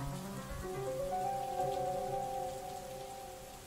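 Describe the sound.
Heavy rain pours down in Đà Lạt, a pine-forested highland area, as a steady, even rush of noise, with a soft melodic tone drifting beneath it.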